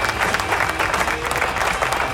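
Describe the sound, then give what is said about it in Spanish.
Applause called for on a radio show: dense, steady clapping that continues throughout, with a low rumbling layer underneath. “Así que aplauso.”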